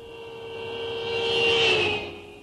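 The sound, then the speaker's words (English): A car drives past with steady engine and road noise that swells to a peak and then fades, a thin high whine running through it. No voices are heard. “That was a car.”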